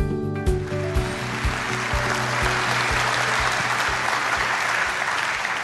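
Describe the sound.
Church audience applauding to welcome a preacher. Dense clapping builds and holds steady over a regular low thumping beat that pulses underneath throughout.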